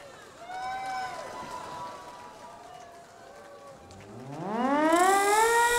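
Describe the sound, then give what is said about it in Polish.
A siren sounds at a Warsaw Uprising commemoration. Faint wavering tones over a noisy background give way to a loud wail that climbs steadily in pitch toward the end. “Syrena! Odpalaj!”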